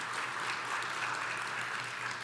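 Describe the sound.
Audience applause given as a warm-up before a guest comes on stage: a soft, even, continuous patter of many hands clapping, steady and unbroken throughout.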